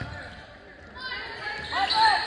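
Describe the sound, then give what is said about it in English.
A basketball bouncing off the backboard during a game, a short thud set against voices and game noise that swell toward the end. “then he takes one step, takes a 10-foot jumper, bounces it off the backboard and in”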